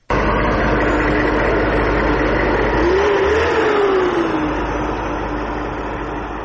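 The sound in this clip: A tank engine from an armoured vehicle convoy drones loud and steady. Midway through, a whine rises and then falls back. No voices are heard.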